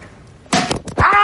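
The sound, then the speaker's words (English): A pitched ball strikes a phone held in someone's hand in a backyard, making two heavy, sharp thuds in quick succession after a brief quiet moment. “Oh, there it is. You knocked there the phone right out of my hand.”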